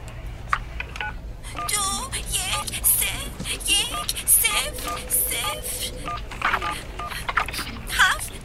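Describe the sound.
Touch-tone beeps of a telephone number being dialed sound as a run of short, clear electronic tones in quick succession, with voices talking over and between the keypresses.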